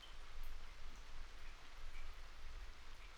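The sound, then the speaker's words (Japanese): Rain falls on a tarp, into leak buckets, onto leaves and into puddles. It makes a soft, continuous hiss of dense droplets that gently swells and eases, faint throughout. “ブルーシートや雨漏り対策のバケツに落ちる音、葉っぱに雨が落ちる音とか、水たまりに落ちていく音、”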